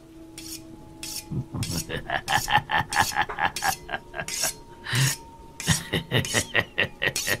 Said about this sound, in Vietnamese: lão miết miết con dao vào cái đít cái bát con. Trong đêm mưa lạnh lẽo, trong cái không gian ma quái, tiếng mài dao nghe đến kinh dị.